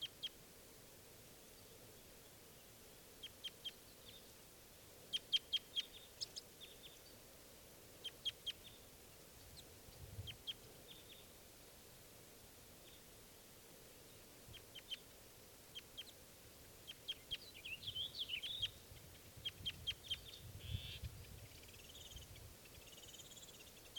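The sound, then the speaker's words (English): Faint flight calls from a bird in a flock: short, high, thin chirps scattered irregularly over about twenty seconds, sometimes in quick clusters, above a steady low background hiss. “one of the individuals is giving flight calls.”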